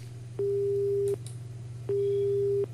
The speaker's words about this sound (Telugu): ఒక శ్రోత ఫోన్ చేశారు, మళ్ళీ ఫోన్ కట్ అయిపోయింది, కట్ చేసినట్టున్నారు.